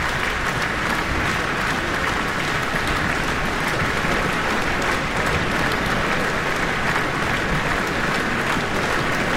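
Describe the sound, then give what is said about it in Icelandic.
Loud, sustained applause from a concert audience after an orchestral performance as the conductor returns to bow, a dense, unbroken wash of clapping that holds steady for the whole stretch with no talk. “fagnaðlátunum linnir ungan veginn hér eftir að Gardner”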